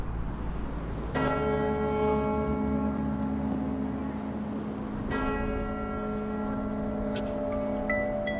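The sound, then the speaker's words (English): Two deep strikes of the St Paul's Cathedral bells, each followed by a long, rich humming resonance that rings on steadily until the next strike and beyond. “we will hear the St Paul's bells bong, which is an amazing sound”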